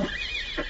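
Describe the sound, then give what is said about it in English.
Horses neighing in one short, quick whinny with a bright, slightly wavering tone, heard alone and fairly faint. “Oh, those stupid horses!”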